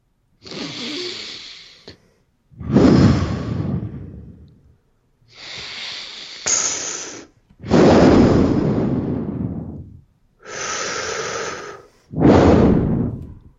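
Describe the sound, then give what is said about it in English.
Three deep breaths, each a slow, airy inhale followed by a longer, fuller exhale, evenly paced with short pauses between them and no talk. “Let's take three deep breaths.”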